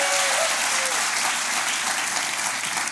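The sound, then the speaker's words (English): A church audience at Calvary Church applauds in a steady, dense wash of clapping that stays loud for the whole stretch. “Can you make some noise for Jesus one more time? Come on, give him some praise.”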